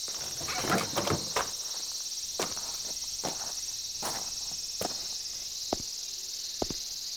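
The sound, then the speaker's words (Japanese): Cicadas sing in summer at an annual festival ground, a steady high-pitched buzzing drone that continues throughout, with scattered faint clicks and taps underneath. “相変わらずやな、ここも。セミの声しか聞こえへん。”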